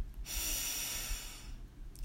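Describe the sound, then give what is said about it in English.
A deep breath drawn in during a guided meditation: a slow, soft, airy inhale lasting about a second and a half, alone and without talk. “And now take a deep breath in.”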